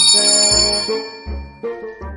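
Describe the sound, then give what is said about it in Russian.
A bell rings during a stage play, giving several bright, ringing tones in a quick, uneven series, each with a deeper resonant tone beneath it. “Звонит.”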